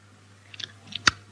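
Someone chews: a few faint, brief, crisp clicks and crunches, with the last one the sharpest, over quiet background hum.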